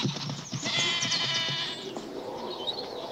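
Goats bleat as they flee in a dramatized scene: one loud, long, wavering bleat rises over the first half, followed by fainter bleating.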